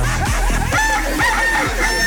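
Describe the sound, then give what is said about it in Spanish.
A rooster crows loudly and continuously, a bright, wavering call that fills the whole moment with no other sound competing. “Amaneció alegre el gallo.”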